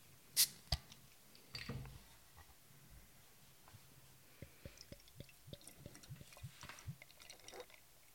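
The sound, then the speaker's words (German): A bottle of Austrian Märzen beer is opened and poured: two quick, sharp clicks come first, then after a pause a soft, rhythmic glugging trickle, all quite faint. “Ja, dann würde ich sagen, mache ich die Flasche doch mal auf.”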